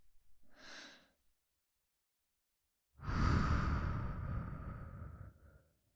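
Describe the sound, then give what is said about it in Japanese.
Slow breathing during a guided relaxation exercise: a short, soft inhale, a long silent pause, then a loud, drawn-out breathy exhale that fades gradually. “ほら、息を吸って、一旦止めて、ゆっくりと息を吐く。”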